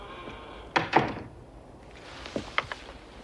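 A door opens as someone walks in: two solid, close-spaced thuds of the latch and frame, then a few lighter clicks and knocks, all fairly quiet with no talk.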